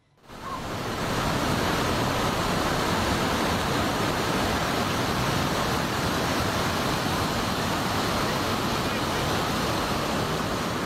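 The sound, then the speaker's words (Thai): Flash flood water rushing violently down from a mountain past a temple in Na Noi district, Nan province, Thailand: a loud, dense, unbroken roar that swells up within the first half second and holds steady throughout. “ที่จังหวัดน่านปรากฏว่าน้ำป่าเนี่ยหลากที่หน้าวัดถ้ำเชตวันที่ตำบลสันทะอำเภอนาน้อยมวลน้ำหลากลงจากภูเขามาอย่างรุนแรงครับ”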